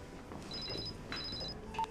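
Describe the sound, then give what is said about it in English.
A phone rings faintly in two short bursts of high, trilling electronic tone, separated by a brief gap, over a low background hiss. “Hello? Mia's phone, Susie speaking.”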